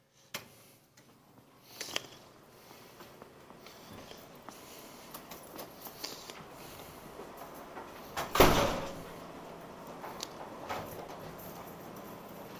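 A locked door is tried, with faint clicks and knocks, then one louder rattling burst from the door, followed by a few quieter taps.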